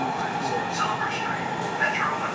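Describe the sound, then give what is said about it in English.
Train arriving at Union Station, heard as a steady, even rumble with no clear breaks, a few faint higher-pitched streaks running through it. “Oh, here we go. Arriving at Union Station.”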